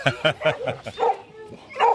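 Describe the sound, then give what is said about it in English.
White shepherd dogs bark in a quick, even run of five sharp barks, then give a few longer, whining yips. “I've got six white shepherds. We'll have to go and count them.”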